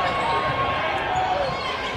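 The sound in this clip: Basketball dribbled on a court during a game, a few rubbery bounces under steady, loud crowd noise.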